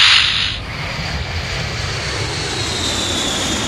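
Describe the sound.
An airplane taking off gives a loud, steady engine roar: broad rumbling noise that starts with a brighter hiss and then holds evenly throughout, with no voices.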